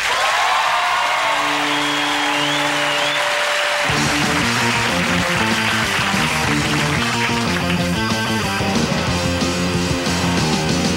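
Studio audience applause and cheering welcome a musical guest on Conan O'Brien's late-night show in New York City, a steady wash of clapping over band music that holds sustained tones before a rhythmic section kicks in.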